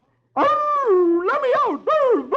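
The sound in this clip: A voice imitates a fox howling in a folk-tale reading, with the fox caught in a snare trap. It gives three loud, drawn-out wavering wails in close succession, each bending up and down in pitch.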